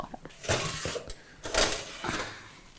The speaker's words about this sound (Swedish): nu kommer bröden upp ur ugnen